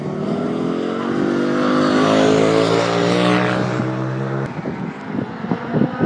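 Racing car engines roar during the second race at the Melbourne hairpin, a loud, sustained drone of steady harmonic tones that turns into rougher, pulsing engine bursts in the final seconds.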